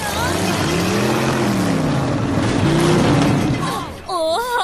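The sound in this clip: A race car engine revs hard with a loud, droning tone whose pitch wavers up and down, then drops away near the end as a voice briefly speaks.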